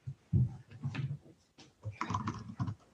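Typing on a computer keyboard while someone enters a name into an online form, with irregular bursts of soft, muffled key clicks separated by brief pauses and no voices.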